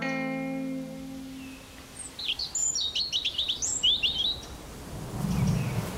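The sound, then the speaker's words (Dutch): A European robin chirps in a quick run of many high, thin chirps and twitters lasting about two seconds, fairly faint against a quiet background. “Kijk, een roodborstje. Ja, lief, hè? Die zit de hele dag om me heen.”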